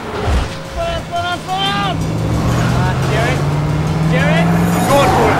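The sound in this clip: A car races along a narrow alleyway, its engine roaring loudly and steadily the whole way through, with brief higher-pitched sounds breaking over the drone.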